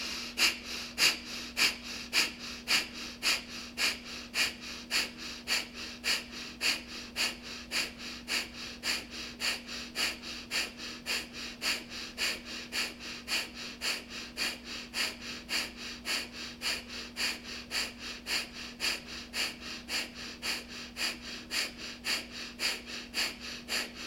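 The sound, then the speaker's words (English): Rapid, forceful breath-of-fire breathing exercise: many quick, even, rhythmic breaths pulse through the whole stretch at a steady fast pace, alone with no talk. “Quarter breath in to begin breath of fire.”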